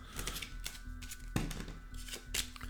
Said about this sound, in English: Hold on, we're just let's cut the cards a few times here.